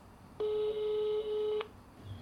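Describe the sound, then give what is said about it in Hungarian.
A phone call being dialed gives a single steady electronic tone lasting just over a second, clear and fairly loud over low background hiss. No voices are heard. “Szívesen felhívom, már hívom is”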